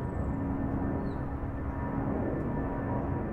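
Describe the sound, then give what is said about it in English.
Planes flying overhead make a steady whirring roar, a continuous broad rumble that holds at an even level throughout. “the whirring roar of planes overhead that I've already told you about”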